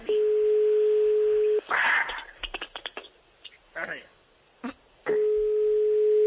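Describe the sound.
Telephone ringing tone while placing a call: a long, steady tone opens, people talk briefly in the gap, then the same even tone returns and runs to the end.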